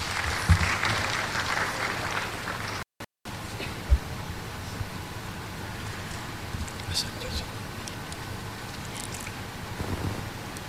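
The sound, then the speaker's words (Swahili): A gathering applauds Sheikh Ali Ngeruko, representative of Tanzania's National Muslim Council (BAKWATA), with a long, rough wash of clapping. It is loudest in the opening seconds, breaks off briefly near three seconds, and then continues as an uneven patter. “Karibu sana Sheikh, na tumpigie makofi mengi sana.”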